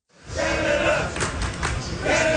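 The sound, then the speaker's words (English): Canada soccer supporters chant loudly in the streets of downtown Houston ahead of a World Cup round of 16 match against Morocco. The crowd noise swells in quickly and then holds as a dense, sustained roar. “Those chants are filling the streets of downtown Houston”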